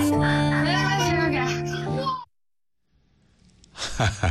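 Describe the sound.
Classmates make envious exclamations, a drawn-out sighing vocal sound with gliding pitch lasting about two seconds. After a short pause, more children's voices come in.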